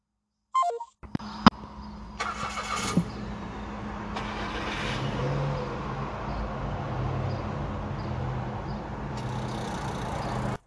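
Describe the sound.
A car engine rumbles steadily while driving, a continuous low road-and-motor noise lasting several seconds, with a brief electronic tone and a few clicks near the start.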